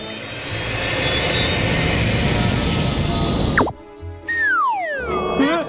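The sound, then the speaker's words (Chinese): An airplane taking off sends up a loud, broad engine roar that holds steady for a few seconds, then breaks off into sliding whistle-like tones that sweep up and fall away. “准备起飞。”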